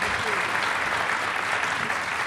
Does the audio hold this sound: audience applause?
yes